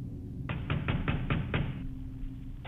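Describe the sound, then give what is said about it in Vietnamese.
Hard, forceful knocking on the door of a house at night: six sharp raps in quick, uneven succession, then a quiet pause over a low hum before one more knock at the end. “Không có lời đáp, chỉ là những tiếng gõ. Lần này thì mạnh cứ như là người ta đập cửa nhà mình.”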